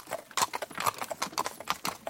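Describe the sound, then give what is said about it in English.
Horse hooves clip-clop steadily as the horse pulls a carriage. Many crisp, fairly faint strikes fall in an even, trotting rhythm with no voices. “On the way home, they met a horse and carriage.”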